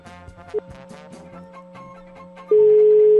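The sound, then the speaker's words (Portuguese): Telephone tones while a call is placed: a short beep, then a loud, steady, unbroken tone that holds to the end, with softer tonal sounds beforehand. “Deixa eu ligar pra essa pessoa aqui, deixa eu ver se ela me atende.”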